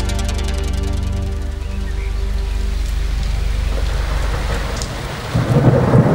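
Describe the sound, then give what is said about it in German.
Heavy rain roars steadily through a thunderstorm, with deep rolling thunder underneath and a louder thunder burst near the end. No voices are heard. “Es donnerte und blitzte schon seit Stunden und es goss wie aus Eimern, als Justus und Peter ihre Freundin Kelly Madigan im Krankenhaus besuchten.”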